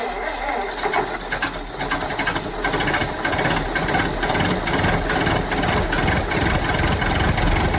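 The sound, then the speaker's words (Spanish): A SEAT car engine runs with a steady, loud, rattling mechanical drone that holds at a constant level throughout, with no voices. “parece que SEAT ya suena así.”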